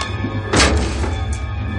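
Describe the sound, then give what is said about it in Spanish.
A single dull thunk as a door opens onto an elevator shaft in a 1988 action film, one short heavy thud rising out of a steady background hum. “abre la puerta y entra despacio en el hueco de ascensores”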